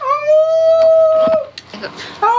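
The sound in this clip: A person imitates a wolf howl with one long, loud, steady, tonal howl lasting over a second, then trails off into quieter noise, and a voice starts at the end.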